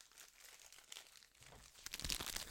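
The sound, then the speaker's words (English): Faint, continuous crinkling of a matte-finish peanut butter Snickers candy bar wrapper, a soft papery rustle that grows a little louder and denser toward the end. “for all my ASMR fans, the package is a matte, has a matte finish, so it's not shiny like a bag of M&Ms.”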